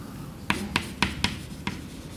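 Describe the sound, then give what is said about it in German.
Writing on a board during a physics lecture: five sharp strokes or taps in a loose, slightly uneven rhythm over a quiet background, with no talk. “Ich schreibe es nur schon mal prophylaktisch hin.”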